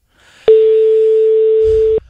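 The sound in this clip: A telephone ringing tone plays while a call is placed: one steady, flat, mid-pitched tone lasting about one and a half seconds, loud and alone, with a faint low rumble near its end.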